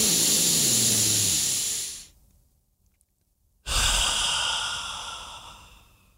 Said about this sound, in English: Stop. Take a breath. And relax.